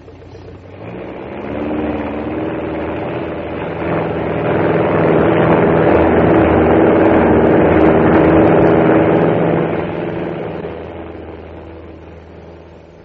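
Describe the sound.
A propeller aircraft engine starts and the plane takes off. The droning roar builds from a low rumble into a loud, steady throb, holds at full power, then gradually fades away toward the end.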